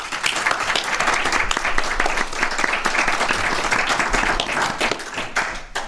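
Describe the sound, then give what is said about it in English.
An audience gives a round of applause for the hosts of a live event. Dense, loud clapping runs steadily through the whole stretch, with a faint voice or two mixed in. “let's hear a big round for the good folks who brought us out here.”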